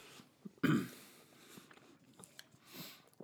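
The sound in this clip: Chewing and biting food while tasting a hot sauce: one sharp, loud bite early on, then faint, low mouth noises.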